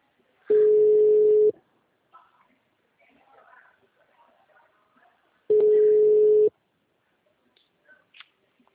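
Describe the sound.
Ringback tone of an outgoing phone call that rings unanswered: two long, steady, even tones about a second each, separated by several seconds of near silence with faint, indistinct murmuring between them.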